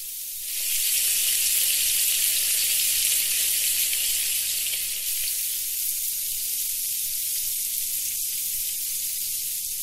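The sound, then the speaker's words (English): Bacon frying in a pan gives a loud, steady, bright sizzle that starts abruptly within the first second and then crackles and hisses evenly to the end, with no voices. “So I want you to think carefully which one the clip with the bacon is.”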